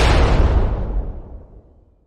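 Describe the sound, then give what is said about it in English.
A bomb explosion sound effect: a loud, rumbling boom that hits at full force at once and then decays steadily over about two seconds, heavy in the low end, with no voices. “Bomb it. Close your ears.”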